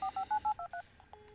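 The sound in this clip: Telephone keypad dialing tones: six quick, evenly spaced beeps at varying pitches, followed by a couple of fainter tones.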